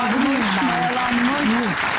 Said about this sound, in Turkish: Koskoca bir alkış şu an.